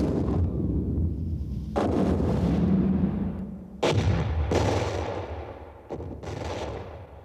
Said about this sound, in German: Ich habe eine kleine Salve auf dich abgegeben, um dich über meine Absichten aufzuklären.